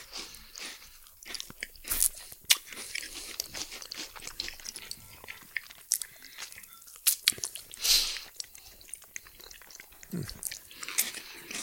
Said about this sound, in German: Und ich sag mal dann guten Appetit. Bei mir gibt's übrigens das selbstgebackene Kastanienbrot dazu.